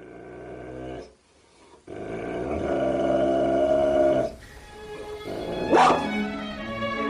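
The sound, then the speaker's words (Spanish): Dogs bark and growl in a mix of low, rumbling snarls and sharper bursts, including a loud yelping peak near the end, with no talk over them. “Los perros de Pavlov.”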